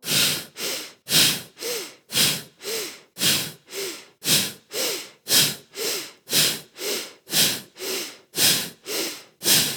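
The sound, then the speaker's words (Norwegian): Deep breaths in and out during the final round of a guided breathing exercise, repeated many times in a steady, even rhythm. Each breath is a loud, airy rush, with no talk. “Vi puster dypt inn.”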